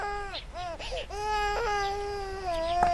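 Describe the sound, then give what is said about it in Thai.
A baby cries: a few short, wavering wails, then a longer sustained cry that rises slightly at the end, fairly loud and alone. “หนูน้อยร้องไห้ทำไม”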